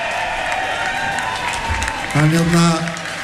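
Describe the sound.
Audience applause at the Bræðslan music festival for a sound engineer who has mixed live shows for 40 years. Dense, steady clapping runs throughout, with a voice rising over the crowd in the final second.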